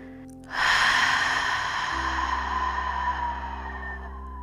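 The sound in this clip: A deep exhale during a guided breathing exercise: one long, breathy release of air that starts abruptly and slowly fades away.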